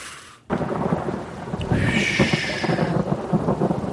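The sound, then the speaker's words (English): Heavy rain with thunder outside: a broad, steady hiss of rain and a low rumble that starts abruptly and then holds at a loud level, with no voices. “Know when it's raining outside like that and we're in this warm.”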